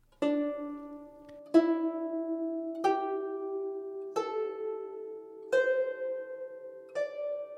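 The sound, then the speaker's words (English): Plucked notes of a Jung zither run up a D, E, G, A, C pentatonic scale: six evenly spaced plucks, each ringing and slowly decaying, stepping higher in pitch with each note, with no talk. “And D, E, G, A, C, which sounds like this.”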